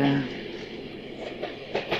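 A train running on rails gives a steady, moderately quiet rumbling roar throughout, with a few faint rhythmic clicks toward the end.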